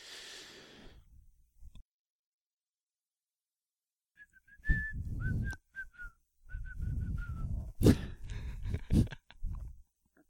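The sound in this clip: Whistling from an animated cartoon: a short, bright whistled tune of wavering notes follows a quiet stretch and rides over low rumbling accompaniment that swells and fades in uneven bursts.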